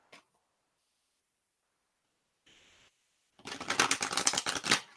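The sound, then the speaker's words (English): Shuffling a Kuan Yin oracle deck: after a couple of faint brief rustles, a rapid, crisp riffling burst of cards flicking against each other fills the last second and a half. “Let's pull a Kuan Yin card. That's been forever since I pulled one of those. There.”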